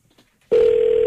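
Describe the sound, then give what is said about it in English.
Telephone ringing tone on a call to a customer care line: after a few faint brief sounds, a loud, steady mid-pitched electronic tone starts abruptly and holds to the end. “Oh, it's ringing. I mean, I know it's ringing”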